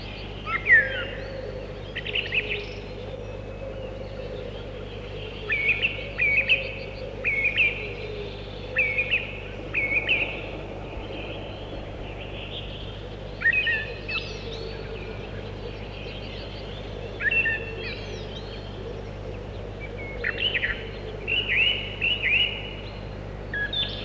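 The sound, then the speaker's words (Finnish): Fieldfare calls: a series of short, harsh, chattering bursts, fairly loud and irregularly spaced, repeating over a steady low background hum. “Räkätti rastas. Räkätti rastas.”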